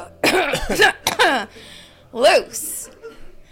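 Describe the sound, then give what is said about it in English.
Coughing and throat clearing from a person during a spoken deliverance prayer: a few short, rough voiced bursts, then a brief breathy hiss, fairly loud and alone. “and then I'll cough once”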